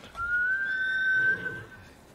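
A horse in a video game whinnies as a faint, thin, high-pitched tone held for a little over a second, then fades.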